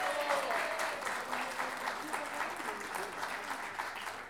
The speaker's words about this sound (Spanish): Y por último, este gran aplauso es para ustedes mismos por estar acá.